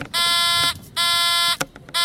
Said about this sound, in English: Are, you want to check your buzzers?